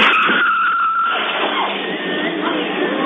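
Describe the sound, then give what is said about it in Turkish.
Tires squeal as a car skids while swerving out of a side street onto a main road in Bursa, Turkey; the harsh, sustained screech runs throughout over broad road noise. “Ara sokaktan caddeye yanlayarak çıkan otomobil karşıya geçmeye çalışan yayaya çarptı.”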